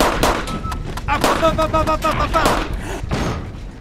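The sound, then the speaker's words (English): A rigged homemade bomb goes off in a rapid series of sharp blasts and heavy thuds, with ringing tones in the middle before the bursts die down. “he rigged it up and I don't want to blow myself up. Gotta trust him. Here goes. Ready? Ready. Bombs away.”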